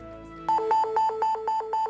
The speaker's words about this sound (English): The phone went off.